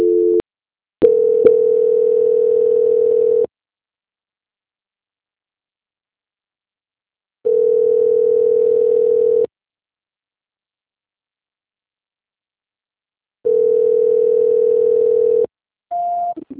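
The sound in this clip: A telephone call-transfer tone: a steady, low electronic tone sounding in three long bursts separated by seconds of silence, with short clicks and brief higher tones at the start and end.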